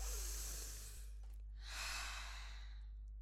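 Long airy breaths from a standing breathing exercise, with two drawn-out rushes of breath separated by a short pause, steady and unhurried with no talking.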